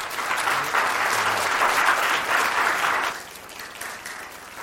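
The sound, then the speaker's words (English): Audience applause welcomes a reverend being introduced at a church ministry gathering: a steady wash of many hands clapping for about three seconds, then thinning to lighter, scattered claps. “Let's give him a welcome.”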